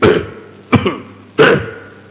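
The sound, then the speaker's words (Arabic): Three throat clearings in quick succession, each a short, rough burst with brief gaps between them. “حتى قال العلماء انتبه لهذا لو أن رجلا تنحنح لغير ضرورة”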